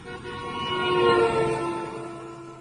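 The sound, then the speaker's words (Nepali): A bus passing on a dusty, unpaved hill road: a droning, tonal hum with horn-like harmonics that swells to a peak midway, then slowly fades. “कस्तो धुलो उडाएको छ्या, पहाडको कच्ची बाटो यस्तै हो miss. Sir एकैछिन छेउ लागौँ, बस कट्छ अनि जाउँला।”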